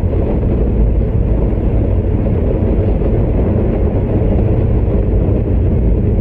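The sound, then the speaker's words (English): A rocket engine roars on a launch during ascent. The rumble is deep, dense and continuous, heavy in the low end and steady in loudness throughout, with no pauses. “Engines tracking good. 24 seconds left, and Schirra reports the pitch program has commenced.”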